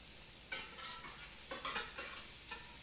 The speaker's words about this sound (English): they are golden brown on the top. And I'm just flipping them over. And I'm going to put the salt and pepper on them.